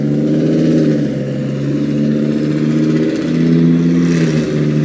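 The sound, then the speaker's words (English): Loud car engine with no muffler, revving in a continuous rough, low drone that swells slightly and then settles, with no pauses throughout. “someone needs a muffler or something. Ride that ticking time bomb.”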